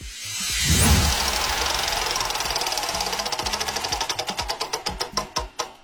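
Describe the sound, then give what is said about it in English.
A spinning question wheel clicks: after a brief whoosh, a rapid run of ratchet clicks gradually slows, the ticks growing louder and more widely spaced as the wheel winds down. “Basically, a bunch of questions go on this wheel and it's going to sound like this.”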